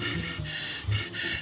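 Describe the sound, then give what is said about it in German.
Deep breaths drawing in a sweet-tasting substance, heard as a few airy, hissing inhalations in a steady rhythm with short gaps between them and no talking. “Schmeckt irgendwie süßlich, das Zeug. Nicht reden, tief einatmen.”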